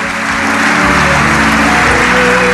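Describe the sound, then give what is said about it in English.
A church audience claps during a service in a loud, dense, continuous wash of many hands that keeps an even level from start to finish. “hallelujah, clap for Jesus.”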